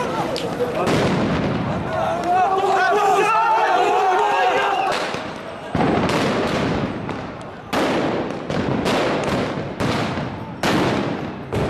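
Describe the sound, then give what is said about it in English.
Stun grenades and tear gas canisters bang sharply and repeatedly over a shouting crowd of worshippers after Friday prayer at the Al-Aqsa Mosque compound. Many loud, irregular blasts burst across a constant roar of voices. “Minutes after Friday prayer, the sound of stun grenades and tear gas was heard.”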